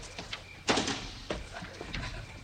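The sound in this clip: A door is opened to let in a visitor, with a sudden rattling thump partway through that trails into a rough scraping rumble, and another knock right at the end.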